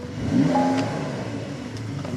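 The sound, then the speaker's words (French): A flat-six car engine runs at a steady, low, rumbling idle throughout. Its level is moderate and fairly even, with a brief spoken word near the start. “ça, c'est un flat 6. Ça, c'est un son de flat 6.”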